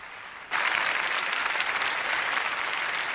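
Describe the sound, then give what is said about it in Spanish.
A huge crowd breaks into applause in front of a big screen. After a brief quiet start the clapping begins abruptly and then holds as a loud, dense, even roar of hands. “Una enorme multitud aplaude ante la gran pantalla. En Westminster los invitados aplauden también.”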